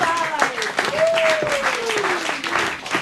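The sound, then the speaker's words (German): Roaring applause comes from an audience at a stage show, continuous dense clapping at a steady, fairly loud level with a voice carrying over it. “Und deshalb begrüßen Sie heute mit uns mit einem tobenden Applaus.”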